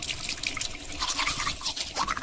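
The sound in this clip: Toothbrush scrubbing teeth, a quiet rasp of bristles in repeated short strokes with faint wet dripping mixed in.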